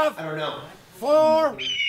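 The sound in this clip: A person imitates a hawk screech in a lawyer's commercial, giving two drawn-out, harsh, nasal calls. The second call is louder and longer, and a brief higher squeal follows at the end.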